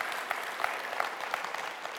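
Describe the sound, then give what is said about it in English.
Audience clapping on cue, a fairly quiet, even patter of many hands that keeps going without pause from start to finish. “Clap if you love Christmas, because your hands are like, you know.”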